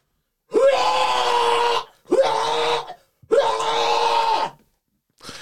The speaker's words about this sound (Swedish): Har du spelat in det eller vad? Nej, men hur jag låter när jag kräks. Jaha. Jag går undan här en bit.